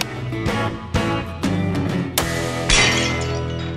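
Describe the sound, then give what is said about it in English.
A rifle shot hits a glass bottle target and sets off a bright burst of shattering glass. Several sharp hits occur against a steady tonal background. “that sound you hear is him shooting a target, a bottle, and it's okay. Shattering.”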